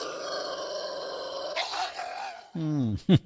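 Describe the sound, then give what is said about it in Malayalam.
A dog barks and growls in two short, rough voiced bursts near the end, following a steady tonal hum with faint background sounds. “ആ ഇവൻ എന്താ മാഷിനെ കണ്ടിട്ടില്ലേ? ഇന്നെന്താ ഒരു കുര?”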